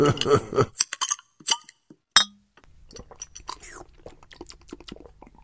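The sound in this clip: A single sharp clink of a beer glass, then several seconds of soft, irregular drinking and handling noises, with a voice speaking briefly just before the clink.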